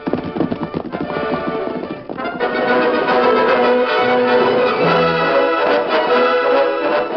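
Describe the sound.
Horses gallop in a steady, driving rhythm of hoofbeats, three riders pushing hard through the night in a western drama, with the pounding holding its pace and growing slightly fuller partway through.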